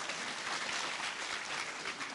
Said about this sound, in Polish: Nie wiem, to jakieś oklaski dla kolegi czy coś.